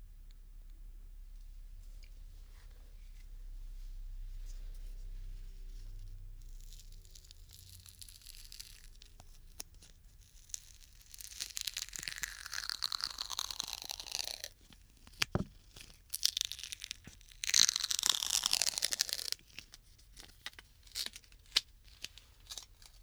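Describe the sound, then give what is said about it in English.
Old-fashioned duct tape torn from the roll and wrapped around a bike for a makeshift repair: faint ripping and stretching sounds in scattered bursts, louder and denser in the second half, with a few sharp crackles. “so I'm just gonna use some old-fashioned duct tape to tape it back on.”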